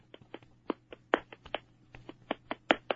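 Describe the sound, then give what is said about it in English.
Hands pat down an arm from shoulder to wrist in a self-massage exercise, making many quick, faint slapping taps in an uneven rhythm over a low steady hum. “stretch open and from the shoulder, you pat it down to the wrist. 5 seconds. When you cup it four.”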